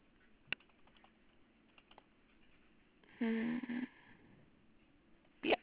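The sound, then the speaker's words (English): Typing on a computer keyboard into a chat during a call: faint scattered clicks, then a short flurry of keystrokes and a final louder tap. “Do you still have the chat open? I can just type it in the chat.”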